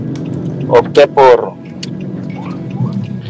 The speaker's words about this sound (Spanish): es que voy conduciendo hacia la casa